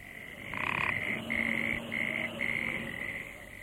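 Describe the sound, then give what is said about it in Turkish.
Frogs croaking at a creek before dawn: rhythmic, high trilling croaks in several repeated bursts over a steady chorus, with no voices. “Gelenler önce kurbağa sesinden başka bir şey duymadılar.”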